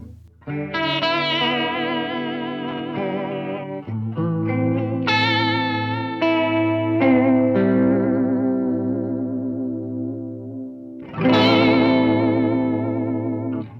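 Electric guitar chords are played through chorus pedals, including an MXR, set to extreme settings. A few sustained, heavily warbling chords ring out in turn, each wavering and shimmering as it decays, with no talking.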